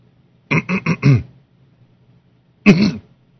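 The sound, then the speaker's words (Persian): A person on a phone line coughs and clears their throat: a quick run of four short, rough bursts, then a pause and one more loud throat clearing. “خب این همه اینجا سرفه کردی، خب صحبت کن دیگه.”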